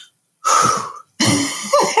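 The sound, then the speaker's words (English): A voice imitates a breath work app alert on a phone with two breathy, drawn-out vocal sounds, each under a second, separated by a short pause. “I have my breath work app. At every hour, I hear my phone go,”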